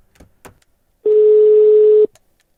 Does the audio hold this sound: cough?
no